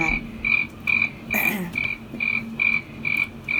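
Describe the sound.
Crickets chirp as a sound effect, a steady series of short, high, evenly spaced chirps repeating at a regular rhythm with no talk over them.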